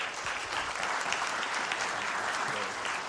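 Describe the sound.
Applause from a church audience welcomes a guest speaker to the stage, a dense, steady wash of many hands clapping at even loudness throughout.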